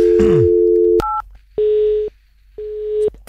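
Telephone tones as a number is dialed: a steady dial tone, then one short, higher two-pitch keypad tone, followed by two long, evenly spaced ringing tones with pauses between them.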